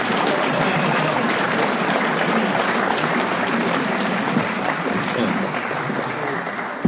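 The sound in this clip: An audience applauds to welcome a speaker. The clapping is a dense, even wash that fills the whole seven seconds and thins slightly toward the end.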